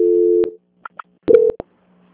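Telephone tones during a call transfer: a steady line tone that cuts off, a few sharp clicks, then a short burst of tone framed by more clicks before the line goes quiet.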